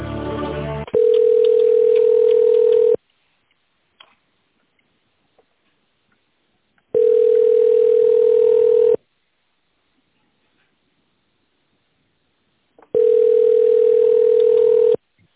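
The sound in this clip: Telephone ringback tone while a call is being connected: three steady, pure mid-pitched tones about two seconds long, separated by roughly four-second silences, after a short burst of noise at the start.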